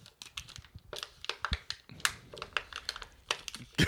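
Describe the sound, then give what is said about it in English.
Crinkling and tearing as a sticker wrapper is peeled off a silver drink can, heard as a rapid series of sharp, irregular crackles and snaps at moderate loudness. “Hang on, so you can hear it. That's me taking the wrapper off.”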